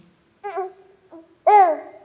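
A teething baby babbles in the audience at a poetry reading, a few short, soft, high vocal bursts separated by silence, the last one louder and more drawn out.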